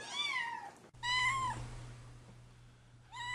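Cats meow beside a house where many neighbourhood cats gather. There are three drawn-out, wavering meows, the last one cut off, with a low steady hum under the middle one and no talking.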